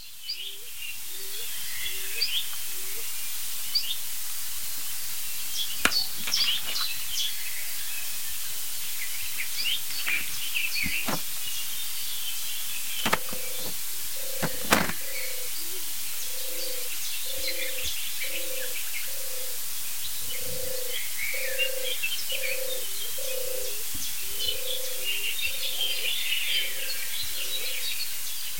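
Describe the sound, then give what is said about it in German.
Muffled, hollow cooing of a stock dove, a cave-nesting pigeon, sounds in the background as a long series of low, soft repeated notes, with brighter chirping birdsong above. “Hohltaube. Sie klingt wirklich wie so ein bisschen aus der Höhle.”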